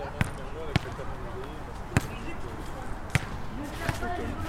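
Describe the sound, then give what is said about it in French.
A basketball bounces on an outdoor court in front of the Merlot, giving a few sharp, irregularly spaced thuds. Voices murmur steadily underneath. “Voilà, on est sur un terrain de basket juste devant le Merlot.”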